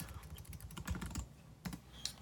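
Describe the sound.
Rapid keystrokes on a computer keyboard, typed while a diagnostic assessment is being entered: many irregular, crisp clicks in bursts, with a short pause near the middle before a few more taps. No voices.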